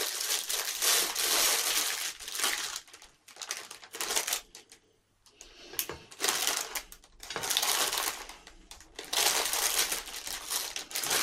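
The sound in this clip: Crinkly plastic packaging being torn and unwrapped from hot dog bread rolls, several loud rustling bursts with brief quiet gaps between them and no talk.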